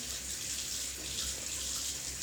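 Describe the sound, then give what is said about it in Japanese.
Hot water runs from a tap while waiting for it to warm up for a lukewarm wash, a steady, even hiss that continues without pause, with no voices. “じゃあちょっとお湯入れていきますね。ちょっとお湯出るまで時間かかるかもしれない”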